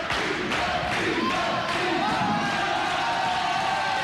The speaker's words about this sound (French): Jean-Pierre, arrête la musique, écoute le public, écoute.